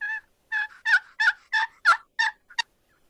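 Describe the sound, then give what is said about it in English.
A wooden turkey box call is played with its side squeezed to soften it, producing a run of eight raspy, high yelps in a steady rhythm, the last one shorter and sharper. “if you squeeze the side of your box call just a little bit, you'll rob some of the vibration and it won't call near as loud.”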